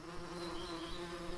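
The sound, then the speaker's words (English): Bees drone inside a beehive built into a wall light switch, a steady, faint, unbroken buzzing hum with a low, even pitch and no other sounds. “The buzz in this light switch isn't from the electrical charge. It's the sound of an entire ecosystem, a beehive.”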